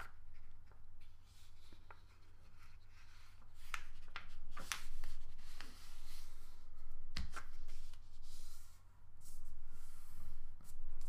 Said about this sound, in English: So fold it in half